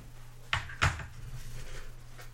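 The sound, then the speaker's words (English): A beer being opened: two sharp bursts come in quick succession, the second slightly stronger, over a faint steady hum. “Excuse me while I open another beer.”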